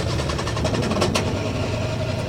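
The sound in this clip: A car engine labours roughly and will not start while smoke comes from under the hood. It makes a steady churning knock with a brief louder burst near the middle.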